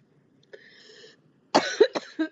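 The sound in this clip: Coughing from a tickle in the throat: a few short, forceful coughs in quick succession, loud and alone, after a faint, quieter stretch beforehand.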